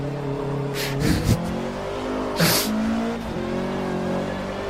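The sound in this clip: A race car engine roars in a driving video game, revving through steady droning harmonics. A few short, noisy bursts stand out over the engine. No one talks.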